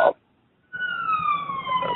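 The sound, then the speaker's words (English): Siren wailing outdoors in New York: after a short burst of noise and a brief silence, a steady high, clear tone slides slowly downward, with its overtones, over a low background rumble. “I hear a siren or something there. That's just my New York location is picking up in the background.”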